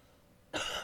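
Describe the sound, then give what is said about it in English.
A person whose throat has dried out from talking gives a single short, harsh cough, a sudden loud burst after near silence. “I'm like... I'm coughing.”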